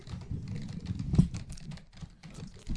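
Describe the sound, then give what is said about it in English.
Fast typing on a computer keyboard as someone enters an address and name, a quick, fairly faint patter of many key clicks over a low background rumble. “You type pretty fast.”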